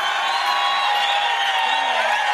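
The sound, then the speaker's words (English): A crowd cheers in a continuous, dense roar of many voices, steady and loud for the whole short stretch without a break. “Boy, I just left a whole lot of cheering on there, didn't I?”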